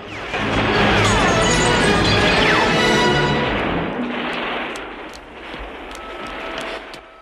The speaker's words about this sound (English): He takes the M60 machine gun from the counter and steps out of the store, blasting the trail of gunpowder as he retreats. He runs off as the ensuing flames ignite the piled-up ammunition in the middle of the room.